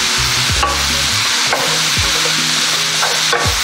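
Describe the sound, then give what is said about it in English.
Chopped thyme stirred through a sizzling frying pan, with a steady, loud hiss of frying and a few scraping strokes of the stirring utensil against the pan. “And now we're just going to add the thyme, the chopped thyme. Stir it through.”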